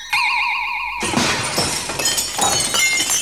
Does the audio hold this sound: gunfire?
no